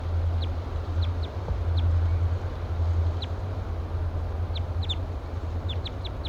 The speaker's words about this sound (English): Giving louder flight calls now.